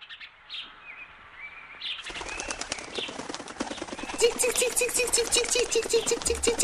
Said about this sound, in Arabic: أحبتي هناك عصفور جميل يطير فوق شجرة البلوط الكبيرة، ثم هبط إلى أسفل جذع الشجرة حيث تقيم السلحفات.